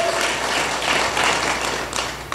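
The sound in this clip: A church audience applauds to welcome a first-time guest, a dense, steady wash of many hands clapping together that holds at even loudness throughout.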